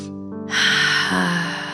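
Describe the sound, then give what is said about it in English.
A long, deep breath taken as a relaxation exercise, a soft breathy rush that swells after a brief pause and holds steady over a sustained tonal drone. “I invite you to take a long, deep breath, fully inhaling, fully exhaling, just releasing out whatever you might have brought into this moment. Deep breath like this.”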